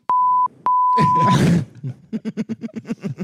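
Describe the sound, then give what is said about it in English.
Electronic beeps from a button: two clean, steady, mid-pitched tones, a short one then a longer one, followed by a loud growling burst and then a rapid series of rhythmic low pulses. “I love this. The beep, dude. The beep is great.”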